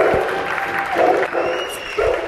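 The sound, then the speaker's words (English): Neighbours at windows and balconies in Paris applaud and cheer at 8 o'clock, a steady wash of scattered clapping with a thin whistle rising above it. “Heads and people come out of those windows and onto the balconies and just cheer, and you finally realize, you're not alone.”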